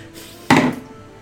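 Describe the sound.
A die is rolled onto a table during a tabletop role-playing game, heard as a single sharp wooden clack against a faint background hiss, with no other sounds and no talk.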